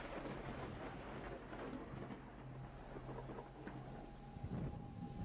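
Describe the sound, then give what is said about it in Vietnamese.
Steady rain with low rumbling thunder from an unseasonal autumn thunderstorm downpour, a continuous soft hiss of falling water throughout with a deep rumble underneath and no voices. “Ngoài trời đã bắt đầu đổ mưa xuống. Kỳ lạ thật, trời vào thu, làm gì có những cơn mưa rào sấm sét như thế này đâu.”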